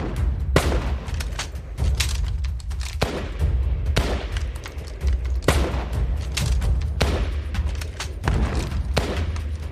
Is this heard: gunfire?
yes